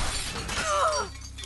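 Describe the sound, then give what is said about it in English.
A large glass window at the front of a house smashes in one loud crash, followed by bright ringing and tinkling shards that quickly fade. “The beast shoots off the bonnet and smashes through a large window at the front of the house.”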